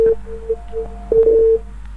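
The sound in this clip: Telephone tones from a call-in line that has just dropped: a few short beeps at a steady pitch, then one longer tone of the same pitch.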